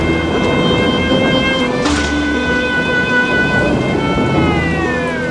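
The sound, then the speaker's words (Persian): Heavy rain and thunder at night: a loud, constant downpour hiss with a low rolling rumble, and sustained musical tones running underneath the storm. “هوا بارونیه امشب شدید میباره”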